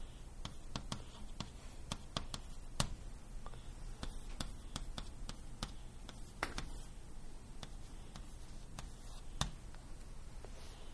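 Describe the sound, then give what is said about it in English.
A lecturer writes on a board during a physics lecture: many quiet, short taps and scratchy strokes in an irregular rhythm, with faint steady hiss underneath and no talk. “let me write it explicitly”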